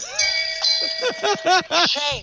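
A bell of shame rings out with a sustained, shimmering tone, followed by a run of short, bright tonal bursts that rise and fall in pitch.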